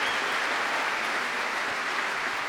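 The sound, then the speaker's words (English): Sustained applause from a large, appreciative audience at a Royal Albert Hall prom concert, a dense, loud wash of clapping that holds steady without breaks. “Donald MacLeod there at a very noisy and appreciative Royal Albert Hall.”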